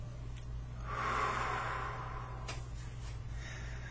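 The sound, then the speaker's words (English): A single slow, deep breath drawn during a guided tapping session, soft and airy, swelling then fading over a low steady hum, with no talking. “Take a deep breath.”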